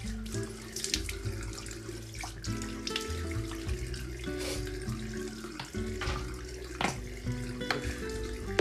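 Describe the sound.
Tap water runs steadily into a sink for face washing, a continuous faint hiss broken by small splashes and light knocks throughout, with no talk.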